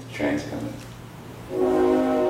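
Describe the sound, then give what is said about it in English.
A freight train whistle sounds from railroad tracks behind a house as a sustained, chord-like horn tone. It comes in after a brief stretch of voice and holds steady to the end. “And then Ravi Coltrane interrupted to point out the whistle of a freight train drifting up from the railroad tracks that run behind the house.”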